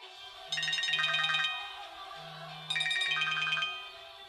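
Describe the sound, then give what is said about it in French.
A telephone rings with an incoming call. Two bursts of warbling electronic ringtone, each about a second long, are separated by a short pause. “L'épisode d'aujourd'hui, intitulé Planification budgétaire, débute par un appel téléphonique qui va leur ouvrir les yeux”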